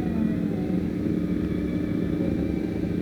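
Rattling car traffic in a street, a steady continuous rumble and roar of engines with no single vehicle standing out and no voices.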